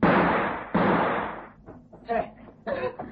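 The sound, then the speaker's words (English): Two loud gunshots from a small gun in a radio drama, each a sharp burst trailing off in a fading tail, followed by quieter talking. “It's all right, I've got his gun now. Oh, that was a tricky moment. Please, it's my shoulder.”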